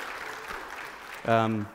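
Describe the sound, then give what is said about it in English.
Scattered audience clapping for high school students at a church service, moderately loud and diffuse for about a second before a single voice cuts in. “Yeah, you can clap for them. That's fine.”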